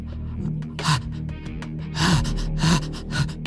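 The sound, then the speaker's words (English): A voice imitates an old man wheezing, producing a few rough, breathy gasps in irregular bursts, each with a strained voiced edge, over low steady background noise. “this old wheezing man is just like...”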